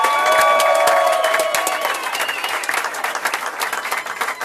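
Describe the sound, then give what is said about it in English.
A standing ovation for a guest welcomed onto a talk program: loud applause and cheering from the audience, fullest at the start and easing slightly as the clapping continues. “Oh, we got a little standing O going as well.”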